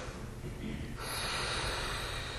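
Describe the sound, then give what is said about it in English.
A deep breath drawn in during a calming exercise, a soft, airy rush that swells partway through and then holds steady, with no talking. “Everybody take a deep breath in.”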